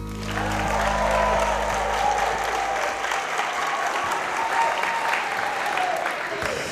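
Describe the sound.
Applause from a large audience gathered in a school hall for a festive occasion: a dense, steady clatter of many hands clapping, sustained without a break.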